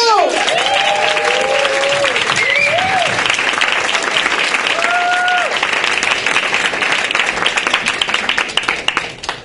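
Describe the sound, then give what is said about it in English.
Audience applause and cheering greet a comedian at a stand-up show: dense, loud clapping with whoops and whistles on top, sustained throughout and tapering slightly at the end. “Make some noise for Adi Naidu!”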